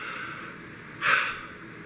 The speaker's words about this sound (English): let me take one more deep breath before you request anything. Ready?